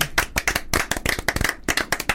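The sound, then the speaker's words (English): A person claps their hands in a quick, uneven run of many sharp claps. The claps are loud and crisp, with no talking. “I was clapping myself then, is that all right?”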